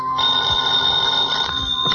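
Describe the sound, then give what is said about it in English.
A telephone bell rings steadily for about two seconds: a continuous, bright electric ring with a high buzzing tone, fairly loud and with no voices over it. “Hardy asked me to phone you to see if there's any word.”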